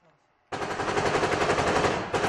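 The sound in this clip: Rapid machine-gun fire on the front line in Ukraine at sunset: a loud, continuous burst that starts abruptly, dips briefly near the end, then resumes.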